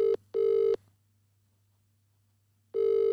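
An outgoing telephone call rings out as a steady ringback tone in short paired bursts, then a long silent gap before the next ring begins, loud and clear with no voices.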